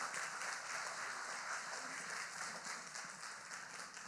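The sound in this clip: A church audience gives faint, steady applause as a couple is welcomed onto the stage. The clapping forms a continuous, even patter from many hands, with no standout voices.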